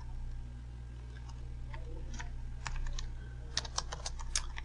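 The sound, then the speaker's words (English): Keystrokes on a computer keyboard while typing into Microsoft Word: scattered, light clicks at an uneven pace, with a few sharper taps near the end and a steady low electrical hum underneath. “You just go where you want to go, type in what you want to type in.”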